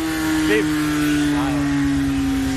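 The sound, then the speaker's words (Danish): A motorcycle engine running with a steady, low, droning hum at a constant pitch, with a couple of brief voice sounds over it. “Prøv lige hør. Det er jo det der. Det er det, vi kan lide. Også ved at køre motorcykel. Det skal jo lyde af noget.”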